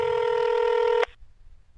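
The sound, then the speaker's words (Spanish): A telephone tone sounds as a number is dialled for a call: one steady, loud electronic tone holds for about a second, then cuts off sharply, leaving only a faint low hum. “déjame hacer una llamadita”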